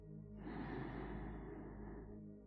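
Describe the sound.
A slow, soft inhale through the nose during a guided breathing meditation: one steady, airy draw lasting about two seconds, faint and alone, with no talking.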